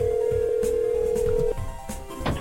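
Ringback tone of an outgoing telephone call to a home phone, a steady droning tone held for about a second and a half, then cutting off into faint line noise.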